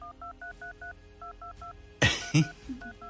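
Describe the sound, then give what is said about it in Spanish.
Telephone keypad dialing tones as a number ending in 64 is redialed: a quick run of five beeps, a short pause, three more, then a loud noisy burst and two final beeps, all at an even pitch. “Voy a volver a marcar. Terminación 64, por el amor del Señor. Estamos marcándote, terminación 64.”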